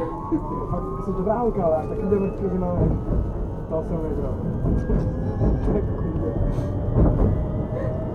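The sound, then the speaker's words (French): Tram interior noise heard from inside the car: a dense, steady low rumble with a thin electric whine that climbs slowly in pitch, roaring continuously like a rocket about to take off. “Ou le tram qui, quand on est à l'intérieur, fait vraiment le bruit d'une sorte de fusée qui va décoller.”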